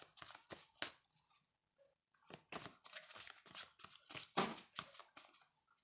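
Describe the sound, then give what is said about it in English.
Playing cards held in hand are flipped up and down, giving many quick, crisp papery flicks in uneven clusters separated by short pauses. “I'm flipping through cards. I have cards in my hand. And I'm flipping them up and down.”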